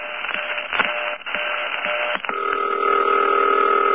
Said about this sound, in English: With the busy signal kind of filtering through in between rings, that's the step-by-step sound.